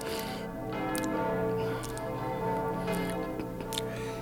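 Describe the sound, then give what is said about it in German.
Church bells in London ring as a dense, steady wash of overlapping metallic tones, broken by a few sharper strikes, with no voices. “Amen, den Glocken, Vater? Wenn du genau hinhörst, was ich dir schon oft erklärt habe, dann verstehst du, dass es ein Tischgebet ist.”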